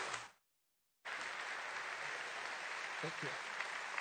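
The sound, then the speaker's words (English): Warm applause from an audience welcoming a pastor at a Richmond Hill gathering: a short burst of clapping cuts off, then after a brief gap dense, steady clapping resumes and carries on to the end. “讓我哋咧係唔再等啦，讓我哋用熱烈嘅掌聲。”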